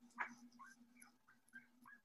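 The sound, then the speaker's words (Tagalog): Faint dog whimpering: a few short, high, quivering whines and yips over a low steady hum. “Pinakain nyo na ba yung aso dyan?”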